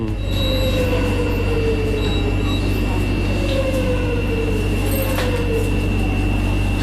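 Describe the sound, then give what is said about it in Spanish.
Metro train doors close and then open over a loud, steady rumble of the train. Brief high tones and a faint squeal of wheels sound above the constant noise. “Cierre de metro. Ahí está, se abren las puertas, la gente entra.”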